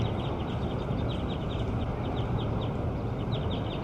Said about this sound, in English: We're calling bird 8 again.